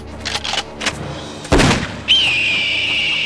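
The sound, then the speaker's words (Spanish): A single loud, booming gunshot is fired at a bird after a few soft knocks, then a sustained high ringing tone follows. “¡Me disparé!”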